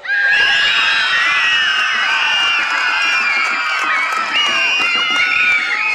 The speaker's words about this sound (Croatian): kako ćete protivnike prepast najvećim vriskom i pljeskom za vas. Sad! To! Idemo još jednom, još jače!